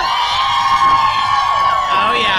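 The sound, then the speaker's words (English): Cheering and whooping from a large live audience at the Lifeway Women Live event in Orlando, loud and lively, with individual voices rising above the crowd. “maybe you might hear some crowd in the background”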